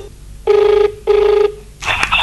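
A telephone rings twice in steady electronic bursts. Each ring lasts about half a second and is loud and evenly pitched, with a short pause between them.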